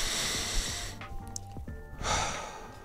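A person takes a deep breath: a long, airy inhale, a brief pause, then a breathy exhale, steady and alone without talk.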